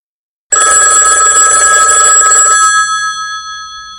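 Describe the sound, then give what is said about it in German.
A telephone ring bursts in loudly after a moment of silence, holds for about two seconds, then cuts off and leaves a fading, ringing tail. “Und dann doch ein Anruf von Chema.”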